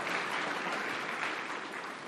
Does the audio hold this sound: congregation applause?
yes